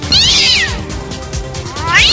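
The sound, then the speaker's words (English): A wild forest cat meows twice in a video game, with high, sweeping cries at the start and the end. Both sound over a dense, busy background of low rumbling and steady game sound. “No, there's just a wild forest cat right behind you.”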